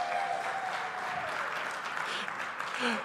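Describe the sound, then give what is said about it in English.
Applause from a church audience welcoming a man to the front, a steady, moderately loud patter of many hands with a voice or two calling out over it. “Let's give him all a hand. Let's give him a hand when he comes.”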